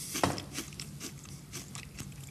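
Biting and chewing a chocolate-flavoured cookie: one sharp crunch near the start, then a string of softer, rhythmic crunchy chews at moderate loudness.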